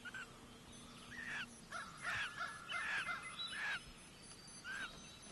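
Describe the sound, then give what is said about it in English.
Loons call in alarm near their nest on a floating platform just after a chick has hatched. Several short, harsh, wavering calls come in separate bursts, faint above a low steady background hum. “These loons are upset because we are close to their nest on this floating platform.”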